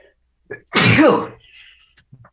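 A single loud, abrupt human sneeze bursts out and fades quickly, with a few faint small noises around it.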